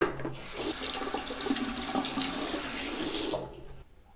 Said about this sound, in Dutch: Ik ga even mijn handen wassen.